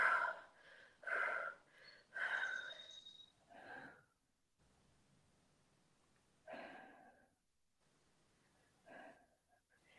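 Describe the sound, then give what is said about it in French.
Hard blowing out and deep belly breaths: a few forceful, breathy bursts follow one another at the start, then a quiet gap and two softer puffs later on. “Puis ensuite, souffle trois fois dessus.”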